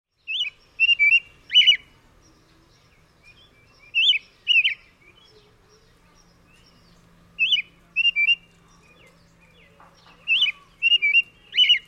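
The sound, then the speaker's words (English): Northern yellow warbler song: bright, high, sweet whistled phrases, four short bursts of quick chirping notes separated by pauses, clear and alone against a quiet background. “Northern yellow warbler.”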